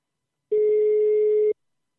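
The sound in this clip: A single steady ringback tone sounds on an outgoing telephone call, a mid-pitched hum lasting about one second that starts and stops abruptly, alone with silence before and after.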